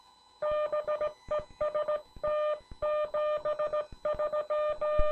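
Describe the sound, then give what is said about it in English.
Morse code sent on a Vibroplex semi-automatic bug key: a steady mid-pitched keyed tone pulses in quick rhythmic bursts of short and longer elements, grouped into characters with brief pauses between them, fairly faint and with no voices. “Now keep in mind, the Vibroplex bug makes the dits. I make the dahs.”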